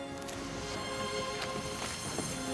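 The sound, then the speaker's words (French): Footsteps climbing the second flight of a grand ceremonial staircase in a public building: a few sharp, irregular steps over a steady, humming background. “Alors ben nous sommes en train de gravir la deuxième volée de l'escalier d'honneur qui mène au hall de l'étage des servants”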